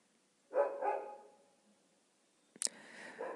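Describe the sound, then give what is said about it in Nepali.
A dog barks outside: a few harmonic barks in one short burst, then a sharp click-like sound and a quieter bark later, with no talk over it. “मेरो कुराले बाहिर कुकुरले पनि सहमति जनाइरहेछ।”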